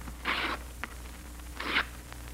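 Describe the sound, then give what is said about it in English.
Paper is torn into strips: two short, bright ripping sounds separated by a pause of about a second, heard over a steady low hum. “Now, I'll tear three strips of paper.”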